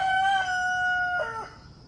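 A rooster crows once, a loud, clear, drawn-out call that breaks into a second rising phrase before trailing off, with no voices.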